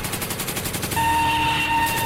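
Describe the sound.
Rapid gunfire on a police shooting range: a quick train of repeated shots fills the first second, followed by a steadier, ringing sustained tone.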